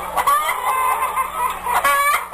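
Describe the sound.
A rain-soaked hen clucks in a string of loud, nasal, harmonic calls that run on almost without pause, with no talk over them.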